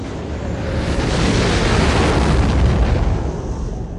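A ship exploding as it is destroyed: a sustained, loud, deep roaring rumble with a broad hiss that holds steady for the whole stretch and does not break into separate blasts.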